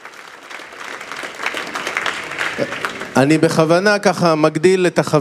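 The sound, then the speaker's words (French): Audience applause swells for about three seconds as clapping builds in intensity, and then a voice begins speaking as the applause fades beneath it. “oui, on peut applaudir.”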